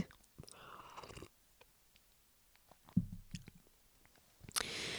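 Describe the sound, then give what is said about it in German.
Someone pauses to sip a drink, with a few bursts of soft, wet slurping and swallowing separated by near silence, plus small mouth clicks. “So, ich muss jetzt erstmal einen Schluck trinken.”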